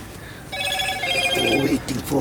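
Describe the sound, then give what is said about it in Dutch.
A phone rings inside a truck cab with a steady, bright electronic ringtone that repeats over about a second, while voices talk alongside it. “De chauffeur wordt gebeld en moet als de wiedeweerga weer vertrekken.”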